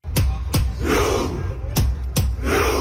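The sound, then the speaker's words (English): Norwegian fans perform the Viking Row at the World Cup, pulling invisible oars from their seats: four sharp, loud collective shouts land in two pairs, with a crowd roar swelling between them. “That's the sound of the Viking Row, a celebration Norwegian fans have brought to this World Cup, chanting as they pull back on invisible oars from their seats,”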